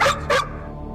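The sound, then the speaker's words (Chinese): Two sharp barks from a drug-detection dog in quick succession, then quiet. “乖狗狗，做得可真棒。”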